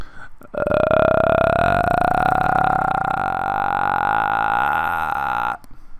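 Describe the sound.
A voice imitates a horror movie villain's growl as one loud, guttural, burp-like tone held for about five seconds. Its pitch creeps slightly upward before it cuts off abruptly.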